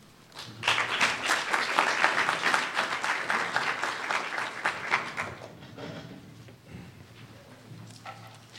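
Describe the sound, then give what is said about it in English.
Audience applause in Cologne greets an invited guest speaker. The clapping swells quickly, stays thick and lively for about five seconds, then thins out and fades to a quieter patter. “I would like you all now to welcome our guest, Alan Levi.”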